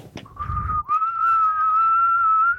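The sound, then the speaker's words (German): A person whistles by breathing inward, first a short wavering note and then one long, steady held tone at a fairly high pitch, clear and alone with no talk. “Ich kann nach innen pfeifen.”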